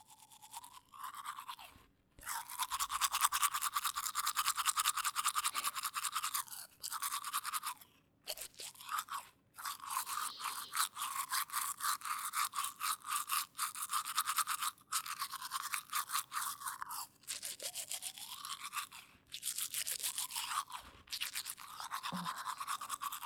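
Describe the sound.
A toothbrush scrubs someone's front teeth in fast, rhythmic bristly strokes, continuing for many seconds with only brief pauses and no talk.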